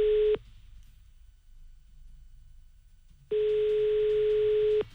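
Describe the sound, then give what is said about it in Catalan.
Ringback tone while calling someone again: one steady, buzzing tone ends at the start, then after a quiet pause with low background hiss, a second long, level tone sounds before cutting off. “Va, tornem a trucar, a veure si ara sí que ens agafa el telèfon.”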